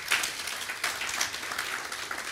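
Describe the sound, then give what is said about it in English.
An audience applauds at a church gathering, with dense, fairly faint clapping that runs evenly through the whole clip. “Let's give him a round of applause just for coming.”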